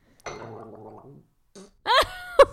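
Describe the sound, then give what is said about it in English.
Gargling attempted while breathing through the nose: a wet, rumbling gargle lasting about a second, then after a short pause a few brief, brighter voiced bursts. “I'm pretty sure you can breathe through your nose and gargle at the same time.”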